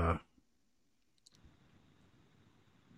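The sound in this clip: Computer mouse clicks in a web browser: a few brief, sharp clicks, the first one loudest, followed by a faint, steady background hiss.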